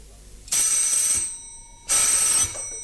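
A telephone rings in two long bursts separated by a pause of about half a second. The rings are loud, bright and shrill, and nothing else is heard between them.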